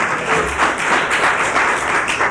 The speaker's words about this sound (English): I should not applaud that in the interest of jointness.